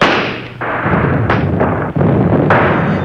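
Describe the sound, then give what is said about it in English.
Gunfire as a pistol is fired for an attack signal on a freezing dawn battlefield. A few sharp reports punch through a dense, continuous low rumble of battle noise, and no voices are heard. “It is time for the attack signal, Major. Fire your pistol.”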